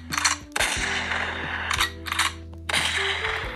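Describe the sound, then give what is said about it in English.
Shotgun blasts crack out in a few loud, sharp bursts, separated by mechanical clicks, over a steady low tonal bed. “Let's take this bitch out of her misery. Let's give a shotgun to the dome, for goodness sake.”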